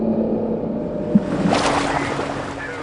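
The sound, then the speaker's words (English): Water sloshes and laps around a small boat bobbing on the sea in a steady, hissing wash. A single brief knock cuts through near the middle. “As our view darkens, we crest above the water's surface. We take in a small boat as we bob up and down in the water.”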